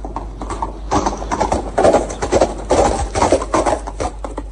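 Horse hooves clatter in an audio drama as a warrior rides out to a duel, a brisk, rhythmic run of many clip-clopping beats rising and falling in loudness throughout.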